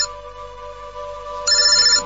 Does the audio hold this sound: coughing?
no